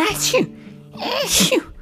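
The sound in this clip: A voice performs two loud sneezes for a character allergic to perfume. Each sneeze is a breathy, pitched burst, and the two are separated by a short pause.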